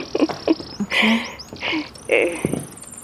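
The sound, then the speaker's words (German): Courting great tits at a nest site giving high, thin chirps and a drawn-out whistling note, faint beneath people talking. “Ich glaube, genau an der Stelle wollen Kohlmeisen ein Nest bauen. Die balzen, wie es aussieht.”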